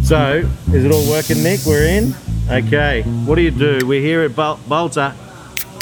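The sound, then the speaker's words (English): A sharp fizzing hiss as a can of XPA beer is opened at the brewery. The hiss lasts about a second, and people talk before, during and after it. “Oh, did you hear that? That's the sound of a crisp XPA.”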